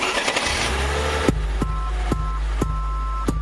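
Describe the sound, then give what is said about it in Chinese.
A car engine revs loudly during a kick-down gear change, then cuts abruptly to a lower, steadier hum punctuated by a few sharp, evenly spaced clicks. “Kick down， 换挡沸腾，所有的气缸划破一道声响，刷刷刷，就像风一样。”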